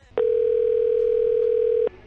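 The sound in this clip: A telephone line tone of an incoming call on a radio program: one loud, steady, mid-pitched tone holds for well over a second and a half, and a brief burst of the tone returns at the very end.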